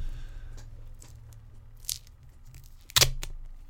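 Adhesive tape torn off a roll: a few short, sharp ripping bursts over a low steady hum, with the loudest tear near the end.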